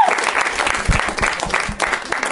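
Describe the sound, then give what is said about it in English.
A talk show audience claps to welcome a comedian guest, a full burst of applause that swells and dips slightly before carrying on. “Now is when you clap.”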